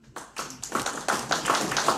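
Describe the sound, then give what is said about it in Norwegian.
Church audience clapping, starting with a few scattered claps that quickly thicken into fuller applause, staying fairly faint. “Vi kjører denne klapp, kom.”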